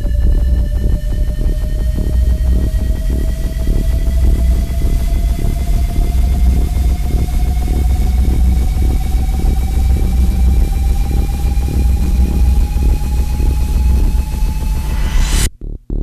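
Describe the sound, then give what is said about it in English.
A spaceship jump drive activates: a loud, rumbling synthetic hum with layered tones that climb slowly in pitch for about fifteen seconds, ending in a sharp burst and abrupt cutoff. “activating jump drive.”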